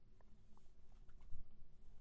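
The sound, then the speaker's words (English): Faint, soft scratching of handwriting with a pen on paper in a journal, a continuous light scraping with small uneven strokes over about two seconds, with no talk. “Write out my purpose, write out my vision, write out my goal. Write down my gratitude list here, write out what I'm doing tomorrow.”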